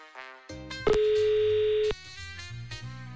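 A telephone dial tone sounds as a call is placed to a listener near Lausanne, a steady single tone that starts abruptly, holds for about a second and cuts off, with other tonal sounds before and after.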